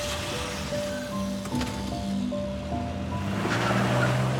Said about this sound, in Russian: садится в машину. Заводит ее и трогается с места.